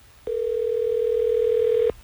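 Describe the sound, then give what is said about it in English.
A telephone tone sounds during a call to a radio listener: one steady, clear, mid-pitched tone that holds for about a second and a half and then stops, alone over faint background noise. “Let's try to get Valentina on the phone.”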